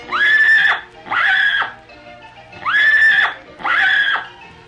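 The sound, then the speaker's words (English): Shetland pony whinnying in four loud, high, sustained calls of similar length, evenly spaced, with a quieter sound between the second and third; no other voices. “Shetland pony.”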